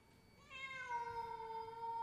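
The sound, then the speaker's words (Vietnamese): A cat yowls at night with one drawn-out, harsh cry. It has a strong harmonic tone that swells at the onset and then holds, slightly lower, for over a second, alone. “một âm thanh chói tai lại vang lên giữa đêm. Tiếng mèo kêu như xé vải”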